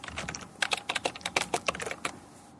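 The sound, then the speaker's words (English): Typing on a computer keyboard: many quick, faint keystrokes in an uneven rapid patter, with brief gaps between bursts. “Sorry about the typing.”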